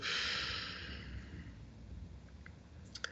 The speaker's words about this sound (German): noch einmal kräftig einatmen und wieder loslassen.